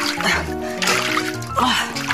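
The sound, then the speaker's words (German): Water splashes as someone washes up in a hurry, a few quick splatters and trickles with vocal sounds mixed in. “Schnell, waschen.”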